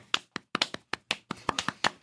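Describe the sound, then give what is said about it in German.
Hands clapping in thanks for a show's sound technician: a small group giving sharp, distinct claps that come in an uneven scatter. Some land singly and others arrive in quick pairs, with no voices over them. “Zum Schluss danke noch an Flo für die Technik und Applaus für Flo.”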